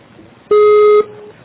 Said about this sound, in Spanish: Por favor, deja tu mensaje después del tono.